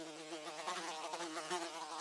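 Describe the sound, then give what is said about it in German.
A housefly buzzing, a steady, faint, high droning hum that wavers slightly in pitch and loudness, heard alone without voices. “Na gut, du hartnäckige Fliege.”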